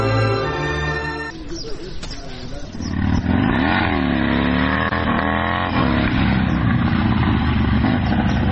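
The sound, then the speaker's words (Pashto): A motorcycle engine revs and drones loudly as the bike is pulled aside to park. The pitch wavers up and down, then settles into a steady, sustained roar. “زه به دا موټر سکل لږ بغل ته ودروم”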